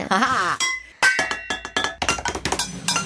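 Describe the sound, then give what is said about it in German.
Cooking pots in a studio are struck like drums, producing many quick, bright metallic clanks and clinks in an uneven rhythm, each hit ringing briefly with a hard, bell-like tone. “Aber wie es der Zufall will, haben wir Kochtöpfe im Studio.”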